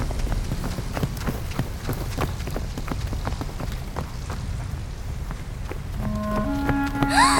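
Footsteps of people running down a pathway between houses: a rapid, regular run of light thuds over constant broad noise, with tonal music rising near the end.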